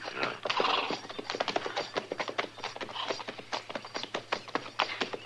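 Clip-clop of horses' hooves as riders ride up toward a house: many quick, irregular hoofbeats continue throughout at a steady, moderate level, with no talk.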